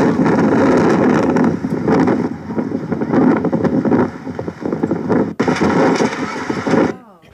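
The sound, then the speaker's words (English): Strong wind blows against refugee camp tents in Greece, a loud, constant roaring rush that buffets the microphone and dips briefly before surging again, then cuts off at the end. “The next day after this was shot, or not the next day, a few days later, the wind started blowing. This is what happened to the tents.”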